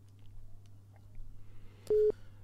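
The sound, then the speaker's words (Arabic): A telephone busy tone on a call line that fails to connect: one short, steady mid-pitched beep cuts in clearly over a low, faint hum. “معنا اتصال وللاسف الشديد الخط مش بيجمع”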